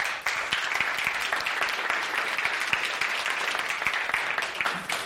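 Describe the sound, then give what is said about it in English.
Applause from a church audience welcoming a speaker to the front, a dense, steady wash of many hands clapping that holds at an even loudness for about five seconds. “We're going to welcome Ellie Boydston. Ellie, would you come on up, please?”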